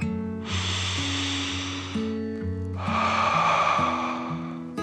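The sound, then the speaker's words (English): A deep, slow breath is drawn in and then let out as a long airy inhale followed by a longer exhale, over soft background music with steady low notes. “He took another deep dragon breath in and out.”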